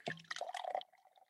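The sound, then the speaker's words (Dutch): Tea pouring into a cup, a brief trickling, splashing gurgle that tapers off into a soft thin dribble, fairly quiet. “Ik schenk nu even lekker een kopje thee in.”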